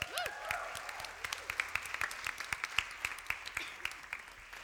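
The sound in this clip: An audience applauds to welcome a guest speaker at a Sunday worship service. The faint, scattered claps are distinct and ease off toward the end.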